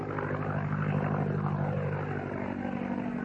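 A propeller aircraft with an OX-5 engine of about 85 to 90 horsepower flies overhead, giving a steady, fairly faint engine drone with a low, humming, harmonic buzz throughout.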